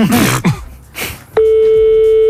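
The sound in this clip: A telephone call rings out without being answered: after a moment of brief talk, a steady, loud electronic ringing tone starts and holds unbroken to the end.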